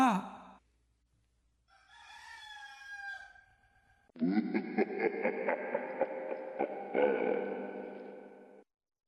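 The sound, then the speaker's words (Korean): A rooster crows in the distance with drawn-out, harmonic calls. A shorter, softer call is followed by a much longer, louder one, and no talk is heard. “그가 맹세를 끝내기 무섭게 멀리서 수탉이 울었다.”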